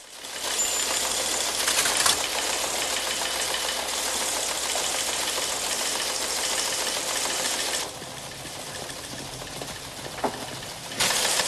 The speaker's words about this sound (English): A teletype machine prints in Russian.